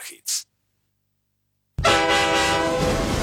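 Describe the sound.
A metro train carriage: a brief burst and a silent pause, then an abrupt, loud, steady rumble with a sustained high tonal whine or horn-like tone running to the end.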